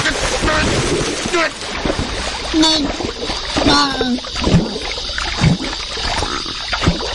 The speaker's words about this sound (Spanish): Y lo vuelven a meter la cabeza así en la tina de agua.